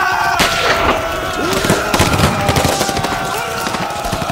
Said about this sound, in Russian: Выстрел сорокопятки ликвидирует пулеметное гнездо.